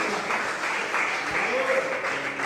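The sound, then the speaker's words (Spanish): An audience applauding during an afternoon church service: a dense spread of clapping hands that holds steady throughout, with voices calling out over it. “Dele palmas al Señor en esta tarde.”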